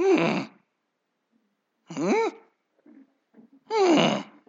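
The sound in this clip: A human voice imitates a Jack Russell terrier whining to be fed: three moaning whines that arch up and then down in pitch, separated by pauses, with a few small soft noises before the last.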